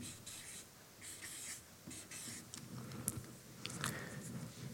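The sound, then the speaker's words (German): A pen writes a word, making faint, soft scratchy strokes in short irregular bursts with brief pauses between them. “Schau, ob ich das so schreiben kann. Belohnen.”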